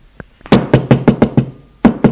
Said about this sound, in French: On frappe à la porte.